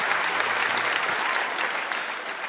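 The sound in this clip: Audience applause for a band being introduced on stage: dense, steady clapping from a crowd that holds at an even loudness through the whole stretch.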